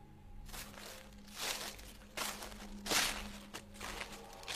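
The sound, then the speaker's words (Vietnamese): Footsteps of someone walking home at night after setting traps: a few faint, crunching steps in a slow, uneven rhythm over a low, steady hum. “Tiếng bước chân của mình tựa như là có thêm một nhịp.”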